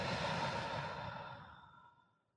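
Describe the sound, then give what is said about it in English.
A deep breath released during a guided breathing exercise: one long, soft, breathy exhale, like a sigh, that starts full and fades gradually to silence over about two seconds. “take a deep breath in and release.”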